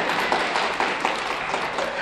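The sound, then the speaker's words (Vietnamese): Listeners at a Buddhist dharma talk clap briefly, a short burst of dense, even applause with light individual claps showing through. “Vỗ tay nha.”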